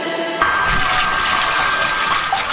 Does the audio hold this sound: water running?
yes